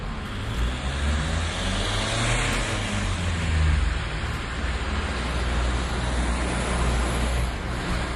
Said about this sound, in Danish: Ja, vi skal snakke om biler og nogen, der er lidt mindre end den, du lige hørte her.